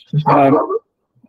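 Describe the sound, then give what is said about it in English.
A dog gives a single loud, harmonic bark or yelp lasting under a second, heard during an indoor recording session; it stands alone, with only a faint short click afterward and near silence around it. “Sorry, that was my dog.”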